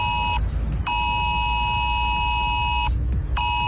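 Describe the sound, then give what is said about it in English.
An emergency mobile phone alert tone sounds as a harsh, buzzing electronic beep in repeated bursts: a short one, a long sustained one, then another starting, loud over a low rumble. “Well, Ireland could be getting an emergency text alert system which would warn us about things like extreme weather.”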